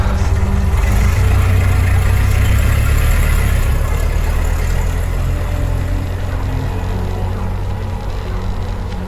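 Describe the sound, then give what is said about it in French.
An old Ford car engine runs in a steady, loud, low idle, a continuous rumbling drone that holds evenly and eases slightly near the end, with no talk. “la remise où était la vieille Ford, puis démarrer le véhicule archaïque vers un point inconnu dans la nuit noire”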